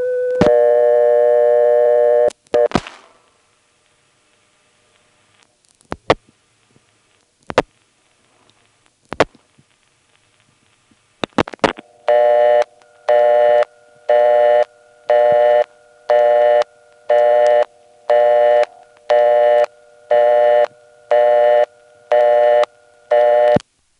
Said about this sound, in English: Here's 1 plus a 3-digit code, which triggers the typical toll restriction device to give us a busy signal.